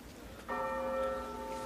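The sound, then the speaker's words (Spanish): A single bell stroke rings out, then a bright tone with clear overtones sustains and slowly fades, faint and alone. “¿Qué es eso? La campana.”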